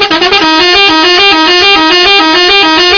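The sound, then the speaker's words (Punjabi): A vehicle horn held in one long, loud, continuous blast, its buzzy tone wavering slightly in a regular pulse throughout, with no talk. “ਪਰ ਤੁਸੀਂ ਆ horn ਸੁਣੋ”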